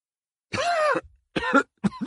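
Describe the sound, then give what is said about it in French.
Coughing fit with a few harsh, rough bursts in quick succession. The first is the longest and the later ones are shorter and choppier, with no talk. “demandai-je au milieu d'une terrible quinte de toux.”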